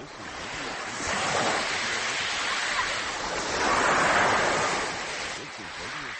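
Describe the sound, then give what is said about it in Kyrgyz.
Large waves on Lake Issyk-Kul, whipped up by a strong wind of 21–22 metres per second: a steady roaring wash of surf mixed with rushing wind noise, swelling louder in two broad surges. “Секундасына 21-22 метр ылдамдыкта соккон шамал 17 июнь күнү Ысык Көл суусуна ушундай чоң толкун жаратты.”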